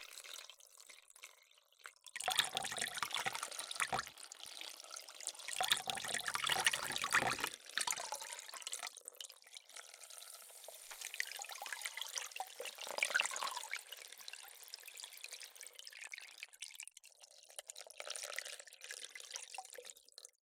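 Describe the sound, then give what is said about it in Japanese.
Hot water poured over a person to rinse them off during a grooming session: a soft, continuous splashing hiss with trickles and drips. It starts after a brief quiet moment and runs on steadily, with no voices. “これくらいで、お湯で洗い流しますね。 はい。 はい。 こちらから、お湯をかけますね。”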